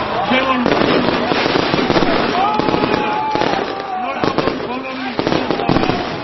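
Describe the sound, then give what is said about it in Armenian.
New Year fireworks go off over a town square after the tree lights are switched on. Loud, dense crackling bangs mix with rising whistles, and crowd voices run underneath throughout. “հրավառություն եղավ”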